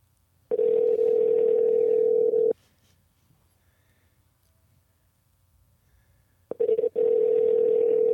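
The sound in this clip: Phone ringback tone while calling out: two long, steady, mid-pitched rings separated by several seconds of silence, the second starting with a brief click and still sounding at the end, with no talk.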